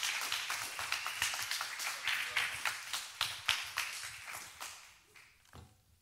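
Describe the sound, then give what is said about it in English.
Clapping from a church audience welcoming visiting missionaries, a dense run of fairly faint hand claps that thins and fades out over the last second. “But would you put your hands together right now as he comes and welcome them to Life Church.”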